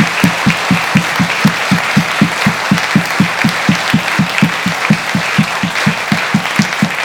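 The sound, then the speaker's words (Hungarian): An audience applauds loudly, clapping in steady rhythmic unison throughout, with a regular pulse of beats and no talk. “Személyes köszönet jár természetesen Sopronnak, és azt mondom, hogy kérek egy óriási tapsot.”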